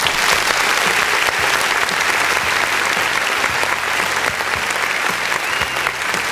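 Loud applause fills a radio program celebrating an audience milestone: dense, steady clapping that runs without a break through the whole stretch, with no voices over it.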